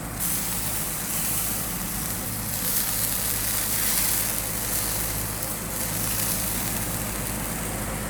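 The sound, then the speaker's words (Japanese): Heavily marbled beef sizzling on a grill net: a steady, dense hiss with fine crackle that holds an even loudness throughout, with no talking. “さあ早速お肉を焼きましょう、ね、これねすごい刺しがバシッと入ってますね。じゃあちょっと焼きますよ。”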